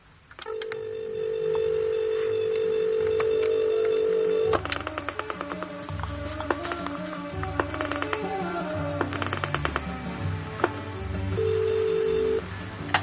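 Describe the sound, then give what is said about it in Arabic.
A telephone being dialed for a call: a steady dial tone runs first, then a long series of short dialing clicks and tones, and a steady tone returns near the end. No voices are heard. “اكلمها قبل ما اروح. تعالى يا تليفون الهنا.”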